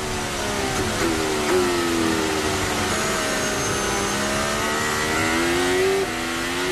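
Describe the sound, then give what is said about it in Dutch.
A Formula 1 car accelerating and braking to recharge its battery, giving a continuous high engine whine whose pitch rises and dips steadily over about seven seconds. “Die hier dus accelereert en remt om de batterij op te laden.”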